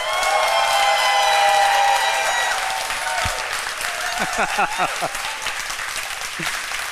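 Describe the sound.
A live show audience cheers and applauds, a dense, loud roar of clapping with shrill whistles and shouts near the start, easing slightly as voices rise over the continuing applause.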